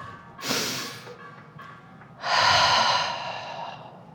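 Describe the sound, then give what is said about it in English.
A deep breath with no talk: a short, airy intake of air, then a longer, louder rush of breath that slowly fades. “Okay. Deep breath.”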